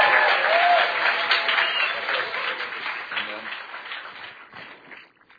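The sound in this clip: Audience applause welcomes a guest onto the stage at a bilingual live event. The dense, steady clapping holds loud at first, then gradually thins and fades away in the final second.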